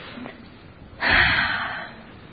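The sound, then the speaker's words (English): A deep breath drawn in by a group during a guided meditation, a single long airy inhale that swells suddenly and then slowly fades over about a second. “Together we all take a very deep breath.”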